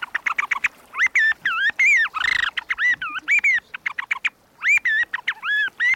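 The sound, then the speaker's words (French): A wooden bird call imitates a blackbird's song: many short, fluting whistled notes with quick upward and downward bends, bright and fairly loud, separated by brief gaps, with a few rougher, squawkier notes mixed in. “Elle faisait du merle avec ce merle en caoutchouc. On a plusieurs modèles pour faire le merle, et celui-ci en bois, là.”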